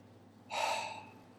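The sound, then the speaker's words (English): A gentle breath out through the mouth during a relaxation exercise: a single soft, airy exhale that swells quickly and then fades, faint and heard alone. “It helps if you breathe out gently through the mouth, like this.”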